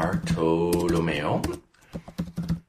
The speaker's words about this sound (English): I can go ahead and write that in a little chat box for y'all. Here we go.